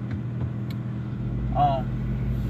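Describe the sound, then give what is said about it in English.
Car road noise from inside a vehicle driving to work, a steady low rumble with a continuous hiss above it, holding at an even level throughout. “I'm recording this podcast as I'm driving down the road actually going to work.”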